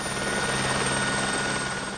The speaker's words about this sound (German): Gegen 18 Uhr fliegt der Rettungshubschrauber davon Richtung Köln, eineinhalb Stunden nach dem Sturz.